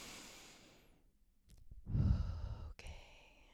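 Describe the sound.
One person takes a slow, deep breath, with a soft airy intake and a heavier, sigh-like release. The breath is faint and no one talks.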